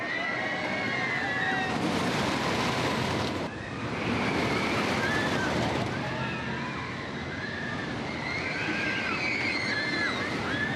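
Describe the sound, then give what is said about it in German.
Wooden roller coaster ride at an amusement park, in operation since 2009. A continuous rushing rumble fills the whole clip, with high-pitched squeals rising and falling above it. “Eine ganze Stufe mehr bietet schon die Holzachterbahn El Toro, die seit 2009 Fahrspaß bietet, inklusive Geräuschkulisse.”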